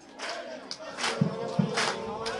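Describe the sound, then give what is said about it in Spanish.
A football crowd cheers from the stands of a municipal stadium as home fans back their club. The roar is steady, with loud surges and a few deep thuds. “Toda la tribuna de este Municipal Andrés Sarria, gran parte de ella, César, animando aquí al Club Deportivo.”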